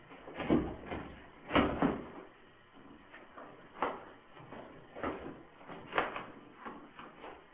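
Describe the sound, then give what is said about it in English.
A worn-out briefcase being worked open: several dull knocks, clicks and rattles of the case and its catches, irregularly spaced with quiet gaps between. “Now forgive me, because these briefcases are just shot. And they don't work well.”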